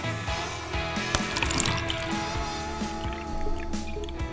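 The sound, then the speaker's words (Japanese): Cold water being poured in a steady, continuous stream, with a bright splashing, trickling texture and a few faint drip-like accents, holding an even level throughout with no voices. “じゃあ続いて冷たいお湯、お水です。冷たいお水、”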